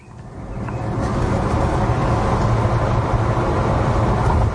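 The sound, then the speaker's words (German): Steady road and engine rumble from a car driving on a country road in the Altmark region of Saxony-Anhalt. The broad, even noise swells during the first second and then holds level throughout, with no voices. “Ja, wir fahren jetzt hier gerade an Gardelegen vorbei und sind auf dem Weg nach Kalbe an der Milde.”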